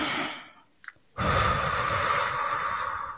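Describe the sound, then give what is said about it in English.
A deep breath drawn in at the start of a guided meditation: after a short quiet gap, a steady, breathy rush begins abruptly and holds evenly for about two seconds. No one speaks. “So we're going to take a deep breath in and hold it.”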